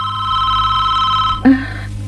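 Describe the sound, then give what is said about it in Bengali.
A telephone ringing with a rapid electronic trill at a steady pitch, heard over a low background hum and followed by a brief thump. “এই ফোনটা একটু ধর না রে।”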